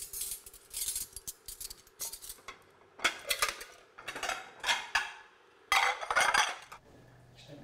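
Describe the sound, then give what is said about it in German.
Deep and flat plates and cutlery being set out on a table for nine people: many irregular, fairly faint clinks and clatters of crockery and metal, in short bursts separated by brief quiet gaps. “Immer die Herausforderung, was es gibt. Tiefe Teller, flache Teller.”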